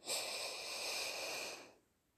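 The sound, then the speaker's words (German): A single deep breath in, taken during a progressive muscle relaxation exercise for children. It is a steady, airy hiss that swells quickly, holds for a bit under two seconds, then stops, leaving near silence. “Und noch einmal tief Luft holen”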